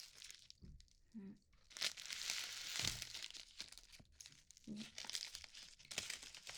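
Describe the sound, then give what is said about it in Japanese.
Plastic wrapping crinkles and tears as an onigiri rice ball with nori is opened, faint intermittent bursts of crackling and rustling with short pauses between them. “私おにぎり開けるのめちゃくちゃ下手くそ。あ、やっぱりほら海苔は、”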